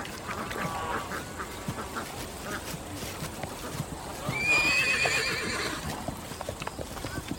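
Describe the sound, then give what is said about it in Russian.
A horse whinnies once in a courtyard, a wavering, fairly high neigh rising out of steady background noise midway through, with clattering hoofbeats around it. “Разве ты не подарил этого коня Катерине?”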